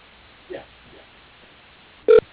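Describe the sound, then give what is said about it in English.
A single short, loud telephone keypad tone sounds near the end while dialing an extension on an automated phone menu, following mostly quiet line noise with a couple of faint brief blips. “If you know your party's 5-digit extension, please dial it now.”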